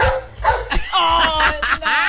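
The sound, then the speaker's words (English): A person imitates a small dog, barking like a chihuahua: several quick, high-pitched yapping yips in uneven bursts, loud and voiced, with no other talk over them. “Can you bark like a dog? Wow. That's like a chihuahua. Let me have one more go.”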